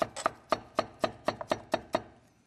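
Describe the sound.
A knife chops vegetables to length on a board, making a steady, evenly spaced series of crisp, sharp chops, with one lighter tap in the middle of the run.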